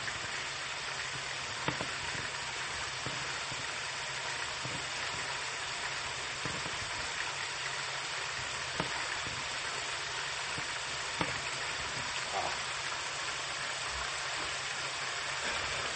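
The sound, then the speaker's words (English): Slices of meat frying in a pan give a steady, even sizzling hiss with scattered small pops and crackles. It runs continuously at a low level without pause. “meat in the pan is soon ready, I believe.”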